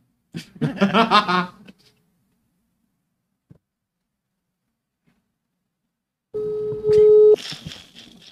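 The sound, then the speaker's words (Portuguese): A WhatsApp voice call's ringing tone: a steady electronic tone starts near the end after talk and a long quiet stretch, with laughter and voices over it. “Eu tô ligando o WhatsApp, hein?”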